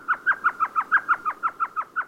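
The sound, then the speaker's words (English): Elf owl calling, the world's smallest owl, a gray bird under six inches tall and under an ounce and a half. Twelve quick, evenly spaced mid-pitched yelping notes in a steady chattering series, clear and alone. “Standing less than 6 inches tall, feathered in gray with big yellow eyes, the elf owl weighs less than an ounce and a half”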